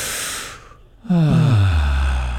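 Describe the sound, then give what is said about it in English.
Three people take one deep breath together: a loud, noisy drawn-in inhale, a brief lull, then a low voiced exhale that drops in pitch and holds steady to the end. “Take one deep breath. Everybody, all three of us, one deep breath.”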